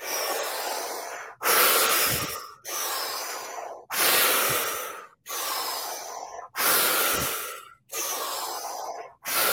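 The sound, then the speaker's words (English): Deep breathing during a guided breathing exercise: a steady series of loud, breathy inhales and exhales, each lasting roughly a second, alternating in an even rhythm with no talking. “Last breath all the way in, all the way out, squeeze, squeeze, and just let your breath return to normal.”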